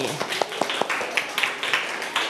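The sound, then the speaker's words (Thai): Classroom applause for a pupil: scattered, light hand claps tapping out an irregular rhythm, with a voice briefly audible at the start. “เก่งมากๆเลยปรบมือให้จิรวดี”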